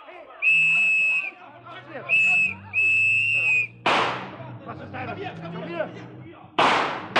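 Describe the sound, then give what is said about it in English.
Two sharp, loud gunshots crack out during a chase through a cafe as police close in, the first midway and the second near the end, after three shrill, steady whistle blasts over a busy background commotion. “Suddenly there was a gun in his hand. Sergeant Payne was in front of him now. Harry fired once, but he never stopped moving.”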